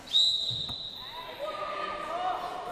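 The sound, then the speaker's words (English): A basketball bounces on a suburban wheelchair basketball court during team training, one sharp thump heard under people talking. “On a suburban basketball court in Maribyrnong, 3 hours north of Brisbane, Peter Kalbfell puts his wheelchair basketball team through its paces.”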